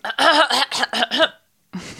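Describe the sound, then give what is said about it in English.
A stuffy-nosed woman clears her throat in a quick run of several voiced, rhythmic bursts. A short pause follows, then another brief rough sound starts. “Let her just clear her throat okay.”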